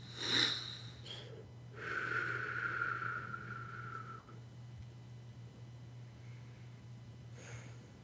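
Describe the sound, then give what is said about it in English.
Deep inhalations from a person doing a breathing exercise: a few long, airy breaths with a soft rushing texture, the longest drawn out for about two seconds, over a low steady hum. “I'd like to start with a couple of deep inhalations.”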